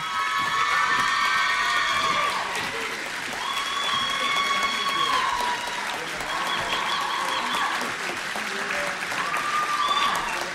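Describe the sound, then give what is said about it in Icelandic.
Audience applause and cheering for the band Rán at a music competition: continuous clapping with shrill whoops and high shouts rising repeatedly above it, swelling and easing in waves. “Já, já, gefið þeim gott klapp, þegar það alveg fyllilega skilur. Og svo mynd. Já, klappið þeim fyrir þeim á meðan.”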